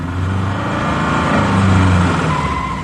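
A motor vehicle's engine rumbles loudly and steadily as it arrives, swelling slightly midway, with no voices heard.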